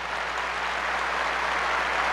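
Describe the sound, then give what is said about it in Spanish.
Applause from an audience at a debate, a dense and steady wash of many hands clapping that holds at an even loudness from start to finish, with no voices standing out. “Esta palabra de este hermano son dignas de aplaudir. Démosle un fuerte aplauso.”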